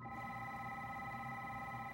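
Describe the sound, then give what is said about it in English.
A telephone rings with a faint, steady electronic tone that holds at an even pitch and cuts off just before the end. “Hey, the phone's ringing again. Maybe it's yourself calling.”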